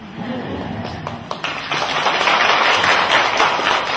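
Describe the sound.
Audience clapping at a Buddhist Lotus Sutra dharma gathering: a few scattered claps grow into dense, steady applause that holds through to the end.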